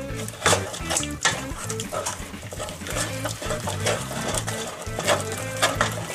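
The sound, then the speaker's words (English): A spoon stirs a cracked egg into a warm mixture just taken off the heat, making many repeated scraping and wet sloshing strokes against the pot in a quick, uneven rhythm. “one at a time, we're gonna crack in one egg, and we're gonna stir it through completely.”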